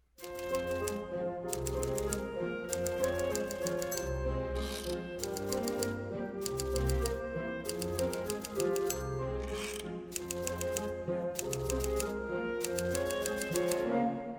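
Typewriter keys clatter rapidly in a clerk's office, sounding in steady bursts of quick strokes with brief pauses throughout. The typing is fairly quiet and no voices are heard.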